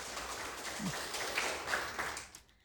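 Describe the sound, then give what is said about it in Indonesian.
Audience applause for a quiz team after a wrong answer in a school-style quiz competition, soft, scattered clapping that thins out and fades away at the end. “Ya, beri tepuk semangat dulu untuk Regu C.”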